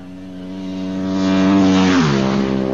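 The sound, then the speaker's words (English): A Ducati racing motorcycle's engine howls during a race, a loud, steady harmonic drone that swells for about a second and a half, then drops sharply in pitch near the end. “Jason's decided to go cautiously. He's back now on the Ducati.”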